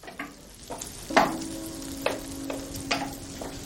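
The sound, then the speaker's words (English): A frying pan sizzles on a hob with flames rising from it. A steady hiss runs throughout, punctuated by several sharp knocks or clinks at irregular intervals. “Sat on the hob, a frying pan appears into view out of which dance orange flames.”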